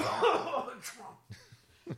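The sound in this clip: A person with a Cheeto lodged in the throat gives a harsh, rasping cough, then a few short throat-clearing grunts separated by brief pauses, fairly quiet overall.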